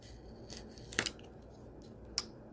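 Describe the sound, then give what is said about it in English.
Faint, short snips of a blade cutting through a craft leaf: a few quick, crisp cuts, one of them doubled, set against quiet. “Where is my blade? I'm going to try cutting and removing a little bit. I don't know if this is going to work. Well, we'll find out. I'm going to cut my leaf.”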